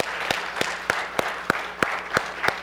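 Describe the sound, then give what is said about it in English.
A church audience claps in a steady rhythm to welcome guests, with about eight sharp, evenly spaced claps at a brisk pace. “I'd like for CLT, for you to put your hands together and let's welcome all of our guests today.”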